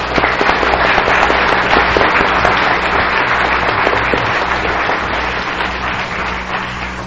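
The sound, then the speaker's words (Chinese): A church audience clapping hands before a baptism, a loud, dense and continuous burst of applause from many people, holding steady and fading slightly toward the end. “咱大家拍手来接纳因。”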